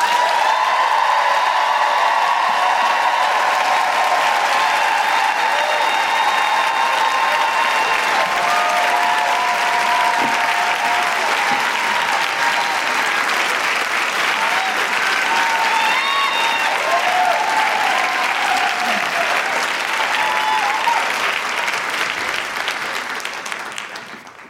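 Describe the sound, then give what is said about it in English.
An audience welcomes a speaker with long, sustained applause and woohooing. The thick, steady clapping runs for over twenty seconds, with high whoops and cheers rising over it before it fades at the end. “Please put your hands together and make incredible woohooing noises for Farzana Doctor.”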